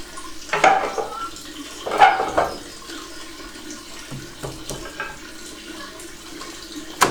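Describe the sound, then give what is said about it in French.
Whey trickles and drips from a bagged cheese curd waiting to go under the press, a continuous watery patter broken by a few louder splashes. “faut pas trop traîner à remettre sous la tresse parce que vous entendez tout le petit lait qu'on perd.”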